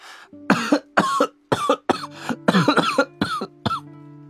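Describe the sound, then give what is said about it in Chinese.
A rapid, sudden fit of harsh coughing repeats as many sharp bursts in an uneven rhythm, over soft sustained background music. “唐默猛地咳嗽”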